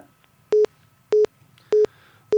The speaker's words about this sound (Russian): К сожалению, да, вот сорвался у нас звонок. Сорвался телефонный звонок.